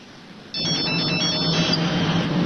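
A telephone rings as an outgoing call is placed: loud electronic ringing starts abruptly after a brief quiet moment and carries on steadily to the end.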